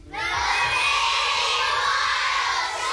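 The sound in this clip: A studio audience of children from the Bristol area cheering and screaming at the opening of a natural history television show, a loud, continuous, high-pitched roar that lasts nearly three seconds.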